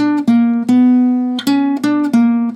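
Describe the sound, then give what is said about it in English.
A simple melody is picked on guitar in a few clear, loud notes that sit close together in pitch. Each note rings and sustains until the next pluck, with no voices. “And that on guitar, it would sound like this.”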